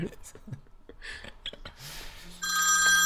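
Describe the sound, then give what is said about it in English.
A telephone rings with a steady, bright electronic tone that begins after a few seconds of talk and continues loudly to the end. “We have a caller on the line.”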